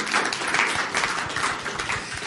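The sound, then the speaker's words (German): Audience applause for the speakers at a discussion event, a thick, continuous spread of many hands clapping at fairly strong volume, swelling slightly in waves. “Tobender Applaus bitte für die Kollegen.”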